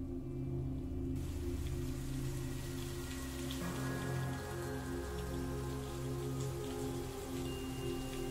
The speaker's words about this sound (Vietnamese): Tiếng sấm sét đì đùng, cơn mưa trái mùa ầm ầm đổ xuống bất chợt.